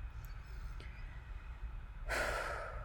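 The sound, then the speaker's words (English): A person takes a deep breath: one soft, airy inhale rises out of near silence late in the stretch and is heard alone, without speech. “Seriously, breathe right now, wherever you are. Take a second and just take a deep breath.”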